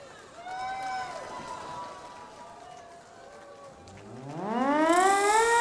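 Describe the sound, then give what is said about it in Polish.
A civil defense siren being set off at a Warsaw Uprising commemoration, sweeping up in pitch and swelling loud after a stretch of voices. “Syrena, odpalaj.”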